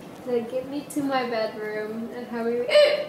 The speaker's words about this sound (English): You have the hiccups? Is that what's going on there?